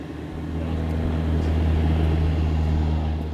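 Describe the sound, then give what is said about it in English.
Steady, low droning aircraft engine noise on an airport tarmac lined with firefighting aircraft, including a 737, large jets and smaller propeller planes; a continuous hum with deep tonal layers that holds even throughout, no voices. “Outside on the tarmac are a number of firefighting aircraft operated by other companies. There's a 737, a couple big jets, and a few smaller propeller planes.”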